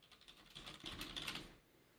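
Faint typing on a computer keyboard, a short burst of quick, light clicks that stops abruptly.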